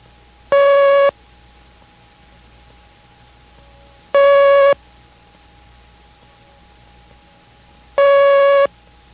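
Three long Morse code dashes, one character (the letter T) sent three times in a code lesson. Each is a steady mid-pitched tone about half a second long, separated by long silent gaps.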